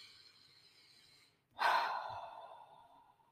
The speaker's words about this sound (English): let's just take a moment and kind of take a deep breath.